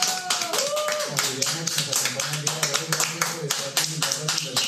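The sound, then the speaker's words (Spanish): Audience applause welcoming a guest to a show: a dense, steady patter of many hands that holds for several seconds, with voices and cheering mixed in. “quiero que todos le demos un aplauso. Bienvenida.”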